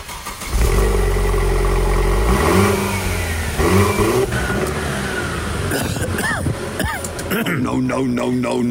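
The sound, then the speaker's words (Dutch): The engine of a two-seater roadster convertible with a small hardtop cranks and catches, settling into a rough, throaty idle. It then revs in several quick bursts, its pitch swooping up and down. “Wat doen we met geluid? We slingeren hem aan voor je.”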